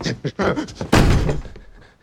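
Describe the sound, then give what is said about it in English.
A front door is pushed shut with one heavy, loud thud that rings briefly and fades. A few softer knocks and shuffles come just before the impact. “He rushes to the front door and holds it shut.”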